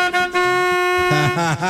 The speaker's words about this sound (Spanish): Ahora sí tengo pito.